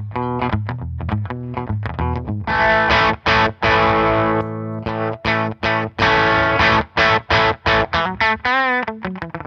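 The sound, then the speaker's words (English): An electric guitar plays through a low-gain ProCo RAT distortion pedal set for a rockabilly tone. It gives many short, clipped notes and chord stabs with brief gaps between them, mildly gritty and fairly loud, with no voices. “to use a low gain RAT as kind of like your just basic dirt. Let me experiment with this a little bit. Oh, I got to switch to my guitar. Yeah, that's it. That's like kind of the rockabilly sound.”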